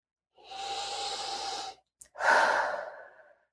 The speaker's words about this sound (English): Big deep breath.